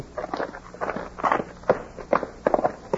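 Footsteps of men walking in, heard as a few irregular, muffled thuds and scuffs of moderate loudness that grow more distinct toward the end.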